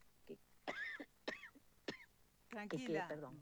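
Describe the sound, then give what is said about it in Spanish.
An allergic cough: a few short, harsh hacks and some throat clearing, then a longer rough voiced burst, all fairly faint. “porque tengo una tos alérgica que me agarra por ahí.”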